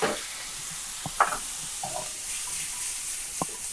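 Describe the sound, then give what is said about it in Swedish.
Food sizzles in a frying pan as it is pulled off the heat: a steady, bright hiss of frying runs throughout, with a few soft taps and clinks of stirring breaking through. “Jag drar stekpannan från värmen.”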